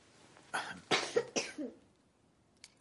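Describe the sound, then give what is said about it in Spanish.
A person with whooping cough coughs on request, giving a short run of several harsh, breathy coughs in quick succession, fairly quiet, followed by near silence and one faint extra sound. “Ahora Échate hacia adelante. Tose un poco.”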